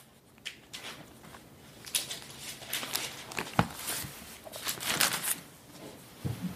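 Bible pages are turned to 1 Corinthians chapter 10 as a sermon reading begins. Many faint, irregular rustles and paper flicks scatter across the quiet, with a few slightly sharper flips among them.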